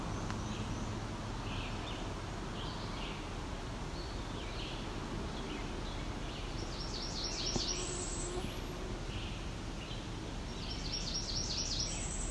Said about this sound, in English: It does sound close to a cerulean warbler, which makes us even more curious, because that's pretty rare, especially this far north, I would think.